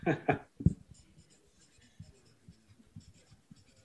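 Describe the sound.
Writing sounds as ideas are noted down during a group discussion: a few loud knocks at the start, then a run of faint, irregular scratchy strokes.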